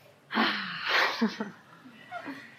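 A person breathing out slowly during a relaxation exercise, one long audible exhale followed by a few softer breathy sounds.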